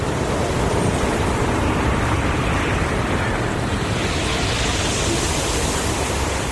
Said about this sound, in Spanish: Cada vez que el agua entra y sale de la orilla, los cantos rodados chocan entre sí, formando una melodía imposible de confundir. Es el sonido de una playa natural